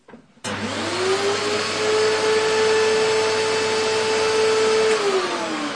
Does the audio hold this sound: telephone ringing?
no

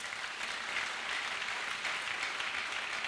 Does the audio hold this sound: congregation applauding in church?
yes

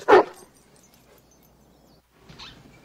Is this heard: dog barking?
yes

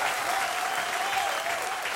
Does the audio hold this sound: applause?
yes

